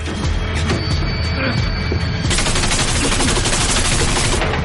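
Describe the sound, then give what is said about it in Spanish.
Gunshots fired at a trailer door: a dense rapid burst of many loud shots fills the second half, after a noisy clatter at the start. “Dentro del remolque uno de los hombres de Gus dispara a la puerta. Corren hasta los agujeros de bala.”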